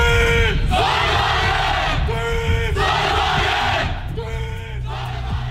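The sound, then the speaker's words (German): A student solar car racing team from Aachen shouts its battle cry at the European Solar Challenge in Zolder, Belgium. Loud voices in unison call out several rhythmic phrases with brief pauses between them. “So hört sich der Schlachtruf des Teams Sonnenwagen Aachen an”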